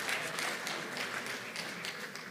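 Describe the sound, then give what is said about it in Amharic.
Applause from an audience during an Amharic-language Bible teaching session, a dense, steady patter of many hands clapping at a low level throughout, with no voices. “አጨብጭቡለት አንድ ጊዜ”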